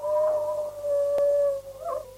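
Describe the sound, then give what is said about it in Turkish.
A wolf's howl holds a long, steady mid-pitched tone, pausing briefly in the middle before carrying on, then gives way to a shorter wavering cry at the end. “Baba, evlat, oğul can derdindeyken bir kurt daha uludu.”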